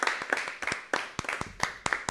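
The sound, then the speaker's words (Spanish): Applause from a studio audience on a television programme, heard as sharp, uneven hand claps that sound sparse rather than a dense ovation. “Un fuerte aplauso.”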